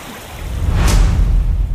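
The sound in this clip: A man jumps into a cold, glacier-fed mountain stream in the Aosta Valley: one brief bright splash, then a loud, steady, low rushing of water.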